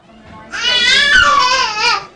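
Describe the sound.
A young girl crying in a tantrum: a loud, sustained, high wailing cry that swells in after a brief quieter start and carries on without a break to the end.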